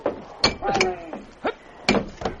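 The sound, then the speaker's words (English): Heavy, sharp blows of an axe striking a locked door to break its lock, several thuds landing at an uneven rhythm. “I'll have to break the lock. Let me get an axe.”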